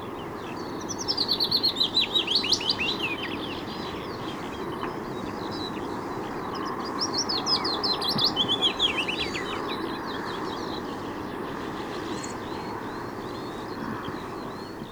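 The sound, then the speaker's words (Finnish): Willow warbler song comes in a few high, sweet phrases of rapid notes, separated by pauses, over a steady low background rumble. “Kuuntelemme nyt vielä pajulintua.”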